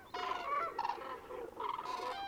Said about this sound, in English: Can you make out the cranes which have their head covered by a yellow plumage? There are a few chicks in the group surrounded by adults.